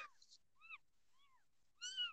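A restless cat meows several times in short, bright, rising-and-falling calls separated by brief pauses, the last call loudest and fullest.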